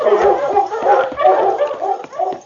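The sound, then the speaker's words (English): Sled dogs bark and yip as they pull a sled along a well-traveled trail out of Dawson, a loud, continuous run of overlapping yelps and short howls with many quick bursts. “As Sergeant Preston's dogs covered the well-traveled trail out of Dawson”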